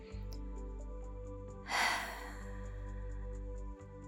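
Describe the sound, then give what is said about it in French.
One short, forceful exhalation during a stretching and breathing exercise: a brief, airy whoosh over a steady low hum and faint, soft background tones. “Commençons par une grande expiration.”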